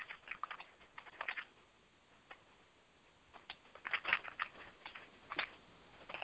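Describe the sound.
Faint typing on a computer keyboard while text is entered into Facebook. Light key clicks come in irregular bursts separated by short pauses.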